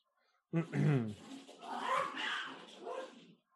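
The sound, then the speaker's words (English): A cat and a dog fight at home: a sudden outburst of growling, yowling and yipping that runs on for about three seconds, rising and falling in loudness. “That was my cat and my dog fighting with each other.”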